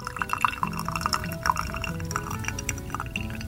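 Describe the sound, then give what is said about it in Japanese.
Hot water drips through a pour-over coffee dripper as the last 100 ml drains, making many faint, irregular drips and trickles over a steady background hiss. “で、今、ドリッパーから最後の 100ml のお湯がどんどん落ちていっています。”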